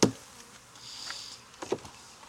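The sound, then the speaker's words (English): Honeybees buzzing in a two-queen hive: a faint, steady buzz with a sharp knock at the start and a couple of brief knocks near the end. “This may be a poorly put together two queen hive. I don't know if they're fighting or anything. We'll find out. Just bees.”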